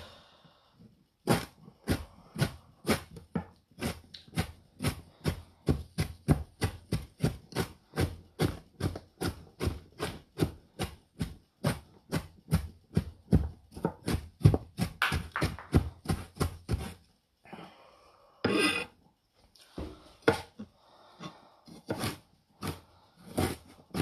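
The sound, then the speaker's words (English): A kitchen knife chops ginger on a cutting board set on a damp cloth, producing a long, even run of many crisp knocks. A short pause near the end is followed by a few more chops. “Right, so that's the ginger chopped.”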